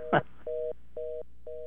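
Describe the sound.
A telephone tone sounds after a caller's line dropped: a short noisy burst, then a steady mid-pitched beep that repeats in regular on-off pulses, three in all, with even gaps between them.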